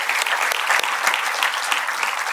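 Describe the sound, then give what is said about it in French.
A church audience applauds during a service, dense and steady clapping that holds at an even, loud level throughout. “Est-ce qu'on pourrait applaudir le Seigneur avant de commencer?”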